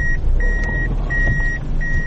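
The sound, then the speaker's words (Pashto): Reversing beeps sound as a black Fielder car backs up and pulls forward to park on a road. Steady, high, drawn-out electronic tones repeat at an even rhythm over a low engine rumble and road noise. “دا د سړک پر سر خپل تور رنګ فیلډر موټر شاو مخته کوي تر څو قانوني ودروي.”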